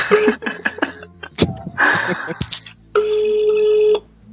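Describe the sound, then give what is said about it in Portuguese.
Telephone ringing with an incoming late-night call: a series of clipped electronic tones, then a loud sustained steady ring for about a second, with no talking. “Quem é esse babaca me ligando 11h30 da noite?”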